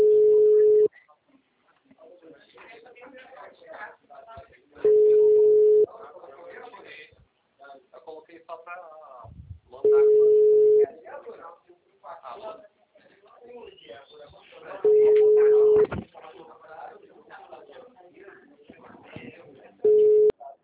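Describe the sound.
Telephone ringback tone on an unanswered call: steady, mid-pitched beeps about a second long, repeating roughly every five seconds, with people talking between and under them.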